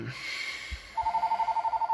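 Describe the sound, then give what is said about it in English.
A telephone rings in a living room with a steady, rapidly pulsing mid-pitched electronic tone. It starts about halfway through after a quieter stretch and keeps going to the end. “Can someone pick up the phone? Apparently not.”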